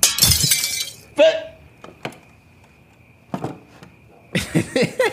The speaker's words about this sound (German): Ich schlag das Fenster ein, das hörst du.